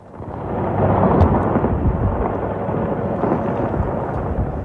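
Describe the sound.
Missiles exploding in a war make a continuous, heavy rumbling roar. It swells slightly early on and then holds steady and loud throughout, with no voices.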